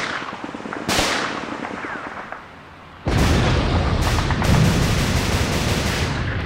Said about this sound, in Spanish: Sigan disparando. Vamos soldados, sigan disparando.